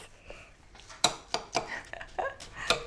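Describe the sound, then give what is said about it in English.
A spoon mixing rice crispies with melted chocolate in a bowl, giving several light, irregular clinks and scrapes against the bowl, with soft rustling between them. “Mix. Mix. You're looking good. Look, you have to cover all the crispies with the chocolate though.”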